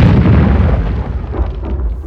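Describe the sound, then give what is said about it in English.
Bomb explosion nearby in Northern Ireland: a loud, deep boom that rumbles on and slowly dies away. “Not the Europa again. Could be. It was close. I hate that. What, the Europa being bombed?”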